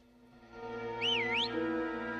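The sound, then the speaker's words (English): A milkman whistles in an alleyway, a short whistled phrase that wavers up and down in pitch, heard over a steady low hum. “A milkman whistles in the alleyway.”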